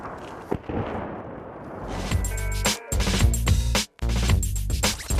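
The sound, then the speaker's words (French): Heavy explosions and shelling outside a building in Kherson: a loud, dense roar of rumbling blasts with a few sharp cutoffs, steady and without voices. “À l'extérieur, les déflagrations incessantes rappellent qu'aucun bâtiment de Kherson n'est à l'abri des tirs.”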